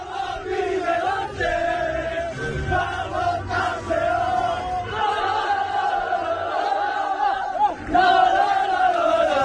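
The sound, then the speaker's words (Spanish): A crowd celebrating Levante football club's first such success in over eighty years, a dense mass of voices singing and cheering loudly and continuously. “Son los sonidos de la celebración de ayer, después de 80 y pico años.”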